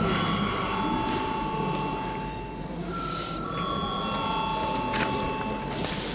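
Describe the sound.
An electric bell rings in a parliament chamber to call deputies to a vote. It is a continuous, steady ringing that lasts throughout, with a faint murmur of background noise beneath it.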